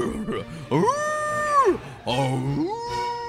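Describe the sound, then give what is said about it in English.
Several wolves howling outside: two long, wavering howls, the first rising and holding steady before dropping away, the second sliding upward after a lower, rougher start. “first you hear one wolf howling to the south, and then you hear two more wolves howling from the north and northeast, and they feel like they're communicating and circling in and getting closer”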